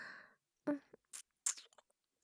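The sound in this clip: Soft, wet licking and mouth noises in an intimate sexual role-play come in short, irregular bursts separated by silence, after an opening breath.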